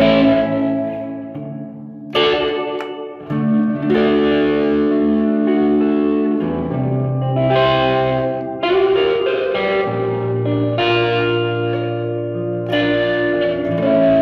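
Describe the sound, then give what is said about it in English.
Distorted notes drenched in heavy reverb with the effect mix turned all the way up. A few struck notes or chords each swell into long, washing tails that blur into one another, loud and without talk. “As you can tell, I got it maxed out with reverb. You can go even heavier. You can really turn the mix all the way up, and you can see really weird effects like this.”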